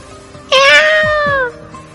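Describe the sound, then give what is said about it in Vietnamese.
A black cat cries out as it struggles after being grabbed by the scruff: a single loud, high, harmonic yowl lasting about a second that sinks slightly in pitch and stands alone. “Mèo đen bị Bạch Ngọc Đường bắt được, vùng vẫy mấy cái kêu lên.”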